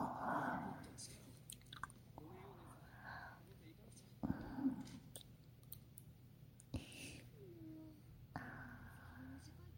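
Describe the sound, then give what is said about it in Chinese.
Fingers are bitten and chewed, making faint, soft wet clicks and small crunches at irregular intervals, with quiet whispering throughout. “要是像这样咬你的手指，你会有感觉吗？”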